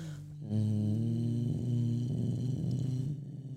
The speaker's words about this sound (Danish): Og så laver man den dybeste nynne, man kan lave.